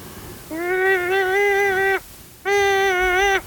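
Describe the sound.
Elk call blown on a light latex diaphragm reed: two sustained, steady-pitched notes, each over a second long and rich in harmonics, separated by a short pause, fairly loud with no talk.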